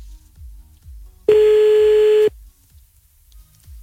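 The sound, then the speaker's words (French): A telephone tone sounds while calling someone back after they hung up: one loud, steady, mid-pitched tone lasting about a second, then quiet. “Oh, merde, il a raccroché. Attends, on va le rappeler.”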